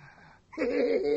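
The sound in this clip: Heavy breathing close to a microphone. After a brief quiet moment it bursts in loud, rough and wheezy with a voiced edge, and holds steady to the end.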